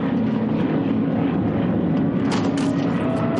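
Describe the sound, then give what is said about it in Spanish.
A World War II aircraft in a film flies toward people running through a gully, its engine a loud, steady drone with a sustained hum and no break. “Un avión vuela hacia ellos que corren por la vaguada.”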